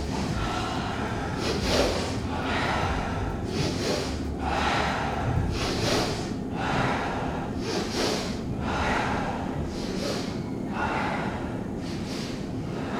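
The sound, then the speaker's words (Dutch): Rhythmic breathing exercise: two breaths drawn in through the nose, then one breath out through the mouth, repeated in a steady cycle. Many airy breath bursts come at regular intervals over a faint background hiss, used to prepare for dancing. “Het is twee keer in door de neus en één keer uit door de mond.”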